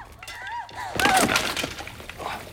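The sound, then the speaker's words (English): A glass skylight shatters as someone falls through it: a sudden, loud crash of breaking glass about a second in, followed by scattered tinkling fragments and rattling debris that fade unevenly over the next moments. “falls through a skylight”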